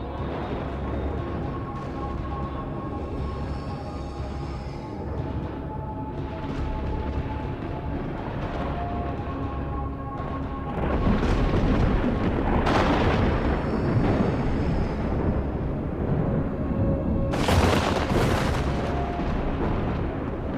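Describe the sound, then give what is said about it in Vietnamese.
Thunder and crackling lightning rumble and boom in dense, continuous crashes that grow louder about halfway through, with sharper bursts cracking out later. “Tiếng lôi điện lẹt đẹt, to dần to dần. Trên không trung, những trụ thần lôi như là cột đình ầm ầm bổ xuống một cách đáng sợ.”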